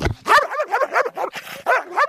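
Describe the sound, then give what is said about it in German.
An energetic dog barks in a rapid series of many sharp, high-pitched barks and yips, loud and closely spaced, with no talking over them. “Kannst du bellen?”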